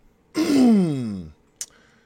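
A single loud, huge throat clear, a voiced rasping rumble that slides downward in pitch for about a second, followed by a brief soft click.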